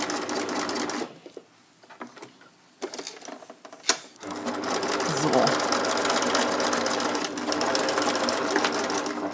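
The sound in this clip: Home sewing machine stitching fabric: after a quieter stretch with a few clicks and knocks, the motor settles into a steady, dense whirring hum with rapid needle chatter that runs evenly to the end.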